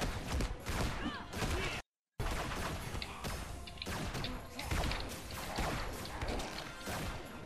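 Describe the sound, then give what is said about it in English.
Laser gun fire in a video game, as rapid bursts of zaps mixed with crashes, thuds and whooshes, loud and busy, broken by one brief silent gap before the barrage resumes. “Okay, those guys are firing laser guns at me.”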